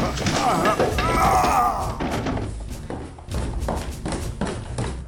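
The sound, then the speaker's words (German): A body tumbling down a staircase in an audio drama: a voice at the start gives way to a run of heavy thuds and knocks in an irregular rhythm, some louder than others. “Als sein Fuß dabei über die letzte Stufe glitt und keinen Halt mehr fand, stürzte er mit wild rudernden Armen die Treppe hin.”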